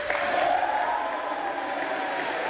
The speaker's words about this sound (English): cheering? Is that what's going on? Yeah, they're cheering for Hakeem.